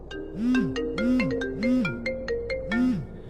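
A mobile phone rings with an electronic ringtone: a looping melody of swooping, arched tones and bright chiming notes that repeats several times at an even pace, moderately loud and with no voices.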